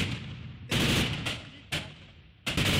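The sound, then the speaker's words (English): Gunfire exchanged between Kurdish Asayish militia units and Syrian government forces fighting over part of a city, heard as four loud, sharp bursts at uneven intervals, each trailing off into a decaying echo. “Amateur video showed Kurdish militia units known as Asayish exchanging fire with Syrian government forces over control of part of the city.”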